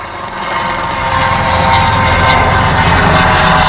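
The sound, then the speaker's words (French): A helicopter gives a loud, steady roar with a dense, whirring rotor and engine noise. It swells a little in the first second, then holds level. “Une hélicoptère, alors? Oui! Bonne réponse. D'accord. C'est un hélicoptère.”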